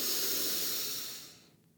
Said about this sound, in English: One more. Inhale.